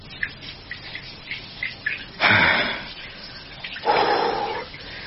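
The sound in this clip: Water running and splashing while someone bathes, with two louder gushing bursts rising over a soft, steady background of small drips and splashes.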